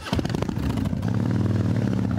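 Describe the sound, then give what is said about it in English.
A Harley-Davidson motorcycle is ridden, its engine giving a steady, low, throbbing rumble with a rough, mechanical edge that holds fairly even throughout. “to ride his Harley.”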